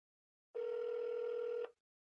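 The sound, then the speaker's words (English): One faint ringback tone on an outgoing telephone call, a single steady buzzing ring lasting about a second, with silence before and after. “I'll give it one more ring.”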